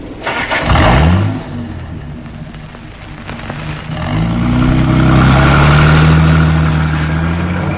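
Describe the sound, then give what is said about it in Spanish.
A car engine cranks and catches, settles into a rough idle, then revs up and pulls away with a rising, steady drone, loud and without speech, as the vehicle sets off. “El teniente Harrison puso en movimiento el vehículo”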